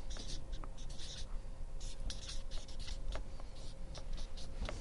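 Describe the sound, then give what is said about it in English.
Hand-writing on a board at the front of a room: faint, scratchy strokes come in many short, irregular bursts over a low, steady hum. “I hate writing up front because I get nervous, like I'm going to misspell something.”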